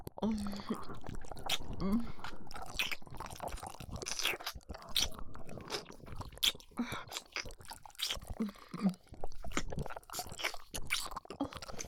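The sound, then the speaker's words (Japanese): Wet licking and mouth sounds: many close smacking, slurping clicks in an irregular, continuous stream, with faint whispering at times. “先の方をなめなめしてあげるよ。”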